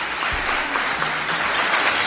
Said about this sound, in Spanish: A ver, un aplauso. Que se escoite.